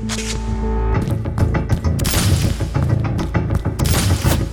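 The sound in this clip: Gunfire and explosions from heavy, high-grade ordnance form a dense, continuous barrage of booms and rapid shots over a sustained low rumble, loud throughout.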